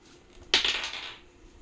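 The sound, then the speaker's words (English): A twenty-sided die is rolled for a dexterity check in a tabletop role-playing game. A single sharp clatter is followed by about half a second of fading rattle, with no voices. “So I'm going to roll for my dexterity. What dice do we roll? So whatever you're going to roll a d20.”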